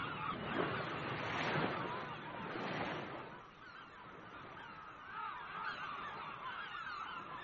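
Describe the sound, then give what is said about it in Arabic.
Penguins call on a beach at the start of the breeding season, a steady mass of honking, braying cries over continuous surf and wind, moderately loud throughout with no break. “شاهدتني مجموعة من طيور البطريق عند نهاية الشاطئ.”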